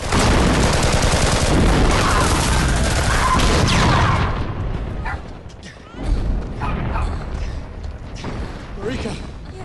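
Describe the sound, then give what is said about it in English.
A volley of gunfire at a block of flats, marking the end of a ceasefire: dense, overlapping loud bursts for about four seconds, then scattered, softer cracks. “A volley of gunfire at the flats heralds the end of the ceasefire.”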